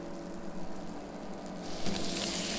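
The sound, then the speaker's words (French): Butter melting in a frying pan gives a steady, soft sizzle and hiss that grows a little louder and brighter toward the end. “Vous faites fondre le beurre dans la poêle.”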